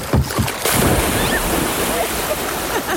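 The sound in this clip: A body plunges off a cottage dock into water with a loud splash, followed by sustained churning, rushing water noise that stays steady to the end.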